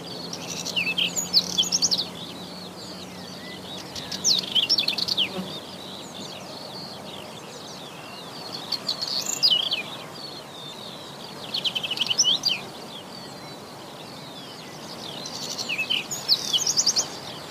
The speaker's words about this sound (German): Wir haben nämlich eine Aufnahme von den Braunkehlchen und da hören wir jetzt mal rein.